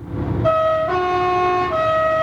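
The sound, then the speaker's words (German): A French train's horn sounds as the train enters or leaves a tunnel: a loud, steady, multi-tone blast rises out of low rumbling and holds to the end, its chord shifting partway through. “Fährt in Frankreich ein Zug in einen Tunnel ein oder aus, muss gepfiffen werden.”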